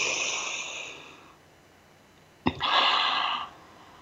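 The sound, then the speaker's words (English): Deep breaths are drawn in during a guided breathing exercise: a long, airy inhale fades out, then after a pause a sharp onset leads into a second full, breathy rush lasting about a second. “really breathe that deeply in. Reaching every cell of our body. Let's take another breath.”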